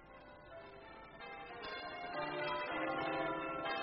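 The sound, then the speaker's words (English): Church bells ringing in a continuous peal, many overlapping tones blending into a shimmering wash that grows gradually louder toward the end. “The voice of the bells of Fenchurch St. Paul.”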